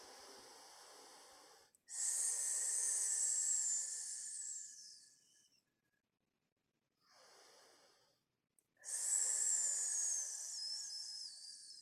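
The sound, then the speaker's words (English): Slow, hissing exhales during a guided breathing and stretching exercise: a few long, airy breaths with a thin whistling edge, alternating louder and softer, separated by short silences, with no talking. “Three more exhales.”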